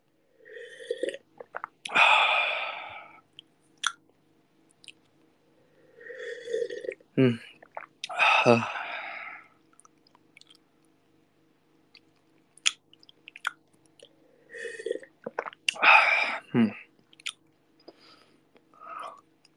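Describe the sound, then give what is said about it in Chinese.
Someone takes a few drawn-out, noisy slurping sips of hot water, with quiet pauses between them and faint breaths in the gaps. “这水比较烫哈、啊，不是我平常喝水不是这样的啊！不要再说我这个老大爷喝水了，这水比较烫。”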